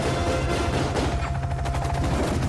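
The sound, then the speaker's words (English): Gunfire from hostile forces aimed at a helicopter: rapid bursts of shots, louder toward the end, over a constant low engine drone. “Why are they shooting at us? Because they're unfriendly.”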